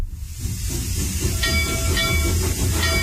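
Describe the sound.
Train sound effect of rail cars rolling along, a steady low rumble with hissing, steam-like noise and faint tonal squeals over about three seconds, with no talking.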